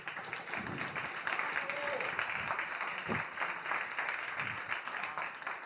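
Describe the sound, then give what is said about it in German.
Audience applause at a live reporter slam event, a dense, steady wash of clapping lasting several seconds at moderate level, with a few voices briefly audible within the crowd noise. “Einmal einen Applaus für alle drei.”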